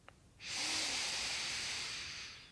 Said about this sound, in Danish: Tag så en dyb indånding gennem næsen.